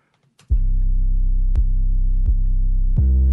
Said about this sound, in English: A common 808 thing is an octave up at the end of the I bar.